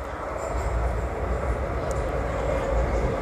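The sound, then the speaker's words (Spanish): Train pulling into a station, heard as a steady low rumble with a broad hiss of running noise. It stays at an even, moderate level throughout. “Y está entrando el tren a Dorada.”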